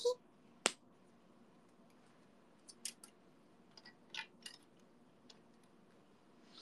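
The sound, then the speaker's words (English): Scissors cutting out a small numbered piece. A sharp click sounds near the start, followed by a few faint, scattered snips and clinks that are separated by quiet pauses. “Have to cut piece number 9. Which is you. So tiny. Tiny.”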